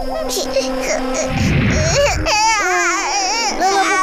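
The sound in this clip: A baby crying: high, wavering wails with rising and falling pitch fill the second half, following a brief noisy burst. A steady tone and voice-like sounds come before it.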